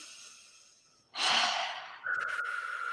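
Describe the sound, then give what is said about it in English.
A deep breath in, drawn during a guided meditation, sounds as a steady, airy rush lasting about a second. It is followed by a sustained, even tone that continues to the end. “Just take another deep breath in”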